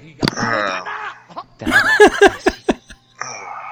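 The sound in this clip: A person groans at a pun, a drawn-out voiced moan followed by a burst of laughter and then a shorter groan.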